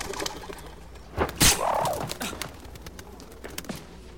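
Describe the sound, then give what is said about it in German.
A dove cooing as it is coaxed to take flight from a tower wall, a sharp bright burst followed by a warbling coo, with scattered faint clicks and rustles around it and no talk. “Psst, ruhig, ganz ruhig. Brave Taube, so ist gut. Komm, komm, komm, auf geht's. Flieg los.”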